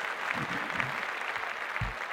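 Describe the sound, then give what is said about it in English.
Steady applause fills the whole clip, a dense wash of clapping hands at moderate level with a few low thumps mixed in. “Make a round of applause for sports in general.”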